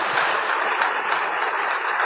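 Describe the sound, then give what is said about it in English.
Audience clapping hands at a church service, a dense, steady wash of applause that holds at an even loudness throughout, with no voices standing out. “Clap your hands.”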